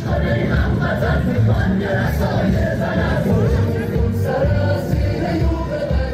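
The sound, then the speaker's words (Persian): A large crowd of Iranians at a rally abroad, protesting executions in Iran, shouts and chants loudly and continuously, many voices blending into a dense, steady roar. “در همین حال اعتراض ها علیه اعدام های گسترده در ایران رو به افزایش است و صدای این اعتراض در تجمعات پراکنده که ایرانیان در بیرون از مرزها برگزار می کنند هم شنیده می شود”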